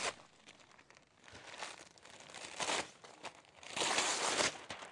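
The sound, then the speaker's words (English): Wrapping paper crinkles and tears as wrapped Christmas gifts are unwrapped, quiet irregular rustling and crackling bursts that grow louder toward the end. “And so I wanted to unwrap these and just kind of go through some of these. I'm hoping I can unwrap them easily.”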